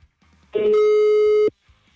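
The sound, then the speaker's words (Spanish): Telephone tone as a call is dialled again: a single loud, steady electronic beep lasting about a second, with faint sounds before and after it. “Le marcamos nuevamente.”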